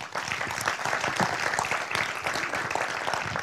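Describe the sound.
An audience claps to welcome a speaker at a talk on caring for veterans, a dense, steady patter of many hands, fairly loud throughout.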